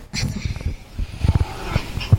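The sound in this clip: Dog vocalizing in a film scene: several brief, gruff, uneven bursts of low growling and grunting sounds, with short pauses between them.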